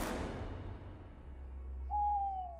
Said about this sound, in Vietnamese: Tiếng cú giữa đêm khuya thanh vắng khiến cho con người cảm thấy nhỏ bé giữa cảnh núi rừng bị bóng đêm nuốt chửng.